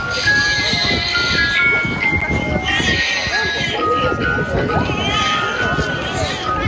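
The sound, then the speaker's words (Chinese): A lullaby plays from a small iron tower as a chain of clear, music-box-like melodic tones, heard alongside talking voices. “更特别的是，小铁塔每十分钟还会传出婴儿的哭声，接着就会有摇篮曲，仿佛母女互动。”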